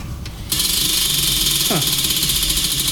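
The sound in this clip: A prize wheel is spun during a game: a loud, fast and steady rattle of ticking starts abruptly and continues without slowing to the end.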